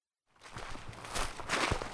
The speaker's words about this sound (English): Hiking below booming pine trees in El Dorado National Forest, I'm on the hunt for the perfect Christmas tree.